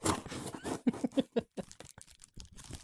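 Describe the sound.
A cardboard box is opened, its packaging crinkling and tearing in a quiet, irregular series of crunchy rips and scrapes.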